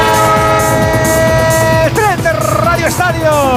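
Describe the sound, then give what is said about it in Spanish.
A train sound effect carries a loud, sustained horn-like tone over rhythmic rail clatter and keeps going throughout. Voices talk over it during the second half. “el tren de Onda Cero, claro que sí, el tren de esta jornada”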